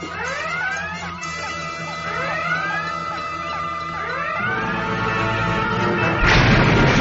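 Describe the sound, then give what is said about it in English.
Star Trek phaser fire from a starship: repeated chirping sci-fi energy blasts with quick rising sweeps layered over a steady electronic drone, ending in a louder, rougher noisy burst. “Phaser, stand by to fire on my order. Aye, sir. Shields on. Phasers, manned and ready, sir.”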